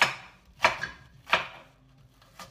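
A knife chopping a medium onion, which is being prepared to cook alongside salmon and courgettes: a few sharp, evenly spaced chops with quiet gaps between them, and no talking.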